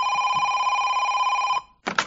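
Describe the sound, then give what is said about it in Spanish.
A telephone rings with a steady electronic tone that lasts about one and a half seconds, falls silent for a moment, and then a second ring begins. “Y entonces se produce esta segunda llamada.”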